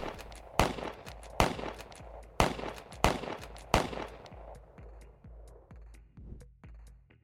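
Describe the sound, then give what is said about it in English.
Gunfire as a sound effect in a satirical mass-shooting skit: five loud, sharp shots at uneven intervals, followed by many fainter, quicker clicks that trail off toward the end. “Please momentarily pause the test for a mass shooting. If you survive, you'll be allowed to continue.”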